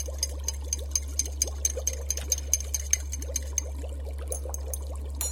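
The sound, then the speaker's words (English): Brisk stirring of a liquid elixir mixture produces a quick, regular run of light clicks and ticks for about five seconds over a steady low hum. “Add this to the mixture. Stir briskly for 5 seconds.”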